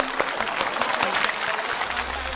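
Applause for children who have just completed a puzzle challenge: a short, dense burst of many quick claps at an even level.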